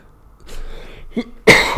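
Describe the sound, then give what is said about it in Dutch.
A short cough after a quiet stretch: a small burst is followed by a louder, harsh one near the end. “Sorry. Even een hoesje.”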